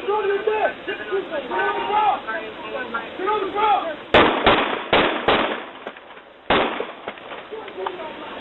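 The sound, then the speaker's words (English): Gunfire as police officers in Miami Gardens open fire on a man after ordering him to the ground, captured on police dash cams. Voices sound first, then a rapid burst of sharp, loud bangs, with one more after a short pause. “The other sound is from police dash cams in Miami Gardens, where police officers ordered a mentally ill black man to get on the ground before white officers opened fire in February and killed 25-year-old Laval Hall.”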